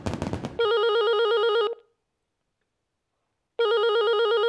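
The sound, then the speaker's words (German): A telephone rings twice with a bright, buzzing electronic tone. The first ring lasts about a second, then a pause of silence, and the second ring starts near the end and is cut off. “Herr Winker von der Deutschen Bank ruft nochmal zurück.”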